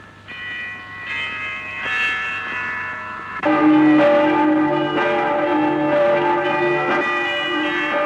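Church bells ring from the Accoules bell tower on Easter morning. Soft metallic tones come first, then a louder strike enters partway through and rings on with rich, sustained overtones. No voices.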